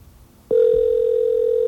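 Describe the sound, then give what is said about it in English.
A telephone ring tone on the line starts after a brief quiet moment and holds steady at one pitch until the end. “This ring could be anything, but if it's our voicemail system, you'll hear our unique error message, which will come after the next ring.”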